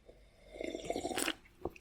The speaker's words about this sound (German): Dann nehme ich mir mal einen Schluck von meinem Spezi.